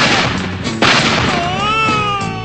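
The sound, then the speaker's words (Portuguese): A single sharp gunshot cracks out over a dense, noisy background and is followed by wavering high tonal squeals. “Vai chumbo. Vai chumbo quente”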